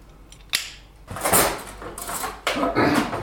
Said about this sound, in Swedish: En ren sked som jag rör om.